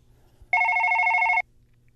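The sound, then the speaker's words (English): A telephone rings once with a single steady electronic burst of just under a second, bright and buzzy with layered high tones, then cuts off abruptly into near silence. “when you hear the telephone ring”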